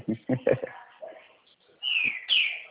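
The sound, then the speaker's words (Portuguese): Small birds sing behind a phone conversation, a couple of brief high, thin chirping phrases rising after a short burst of talk. “eu tô ouvindo os passarinhos cantando aí”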